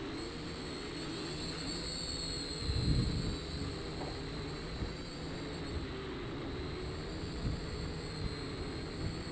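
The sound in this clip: A small manually flown aircraft with no GPS stabilization, flying in the wind: a steady, high buzzing whine runs throughout, with low gusty rumbles and one stronger swell early on.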